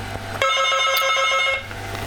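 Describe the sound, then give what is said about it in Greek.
A telephone rings once: a bright, buzzing electronic trill that lasts about a second over a low background hum. “Μην χτυπάς τηλέφωνο γιατί ξυπνά τα παιδιά.”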